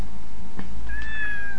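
A cat meows once, a drawn-out, high, clear cry that sags slightly in pitch toward its end, following a soft brief knock, over a steady background hiss.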